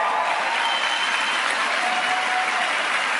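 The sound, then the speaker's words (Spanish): Audience applause at a Spanish-language motivational talk, honoring several men asked to stand. Dense, even clapping holds steady at a fairly loud level for about three seconds, with no voices over it. “Estos señores que ven aquí, denles un aplauso, por favor.”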